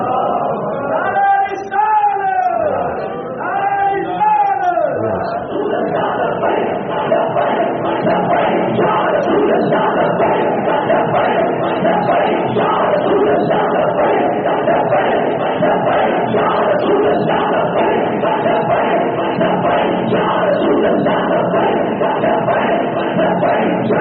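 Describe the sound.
Crowd chanting in response to a takbir slogan at a Pakistan Sunni Tehreek gathering: many voices chant loudly in unison in a few rising calls, then a sustained roar of crowd noise continues at a steady level.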